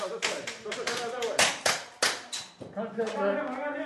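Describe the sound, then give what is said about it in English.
Sharp cracks of simulated ammunition fired by Texas police running active shooter training in a vacant building near Dallas: many loud, irregular shots in quick succession, with voices in the background. “These Texas cops are running through active shooter scenarios in a vacant building near Dallas. They're firing simulated ammunition, trying to find and stop the killer, even as wounded role players cry for help.”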